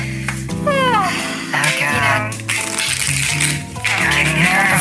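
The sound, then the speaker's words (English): Stiff, new playing cards being shuffled and broken in, giving several rattling, riffling bursts in quick succession over a steady tonal background. “Come on, cards. No whammies. Boy, these cards are really stiff. No whammies. Just a minute. Just gonna play with these and breaking them in.”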